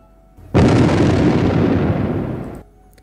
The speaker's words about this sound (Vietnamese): Ngay khi tiếng nói của Huyền Diệu vừa dứt, một thanh âm nổ mạnh kinh thiên vang lên.